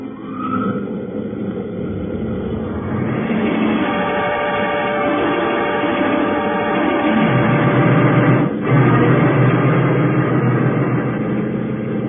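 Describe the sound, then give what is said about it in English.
A spaceship's solar drive engine cutting in during an early-1950s radio drama: a steady droning hum with whining tones that swells after a few seconds and then holds loud and continuous, with a brief dip near the end. “I'll cut in the solar drive and we'll move into the closest one.”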